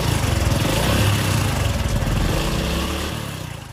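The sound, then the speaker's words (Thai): A motorcycle engine runs with a rapid, throbbing putter, loud and steady at first, then growing quieter toward the end as it pulls away. “ถ้าทำได้ตามนี้สตาร์ทรถออกไปกันเลย”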